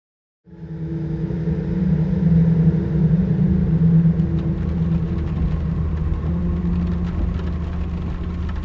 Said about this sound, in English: I'm driving down the E40 towards Liège from Brussels